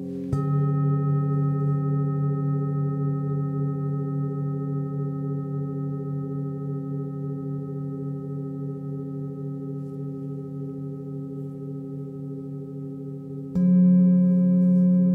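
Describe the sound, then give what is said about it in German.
Deep, earthy singing bowl tone: one strike at the start rings into a long, steady, slowly fading hum with layered overtones, then a second, louder strike near the end renews the ringing. “lausche dem tiefen, erdigen Klang der Beckenschale.”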